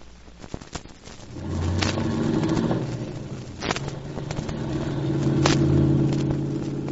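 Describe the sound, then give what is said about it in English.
Car driving off, its engine rumble swelling as it pulls away and rising again later, with a few sharp clicks and crackles over the steady motor sound. “Slide over. I'll drive.”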